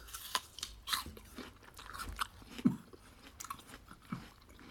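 Crisp crunches of biting into an apple, followed by wet chewing, quiet and uneven, with a few sharper bites standing out from softer mastication and no talk.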